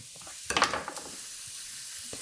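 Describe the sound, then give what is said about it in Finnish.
Coriander seeds, a tablespoon of them, frying in a hot pan: a short burst of crackling sizzle flares up, then settles to a faint, steady hiss. “Sitten lisätään korianterisiemeniä, 1 ruokalusikallinen. Mä otan nyt oikein ihan hei mitan tästä näin. Näistähän tulee ihana tuoksu. kun ne tuossa paistuu.”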